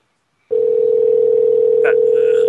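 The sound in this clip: A loud, steady telephone tone while a number is being called. It holds one unchanging pitch for about two seconds after a brief silence, then cuts off.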